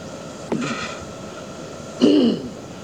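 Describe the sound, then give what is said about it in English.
A person clearing their throat twice, a short rasp and then a louder, longer one about a second and a half later, over a steady faint background hiss. “clearing my throat, it even took my voice”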